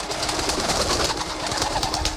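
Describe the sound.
An owl and a parrot arrive amid dense, continuous bird sounds: cooing calls over a busy, fluttering wash that stays loud and steady throughout.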